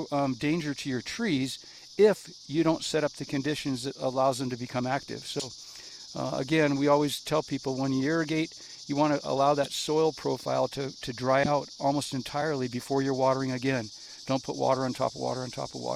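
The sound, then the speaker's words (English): Cicadas in a riparian reserve in Prescott keep up a steady, high-pitched drone throughout. Someone talks continuously over the insect chorus. “Those are the cicadas that are our music in the background today.”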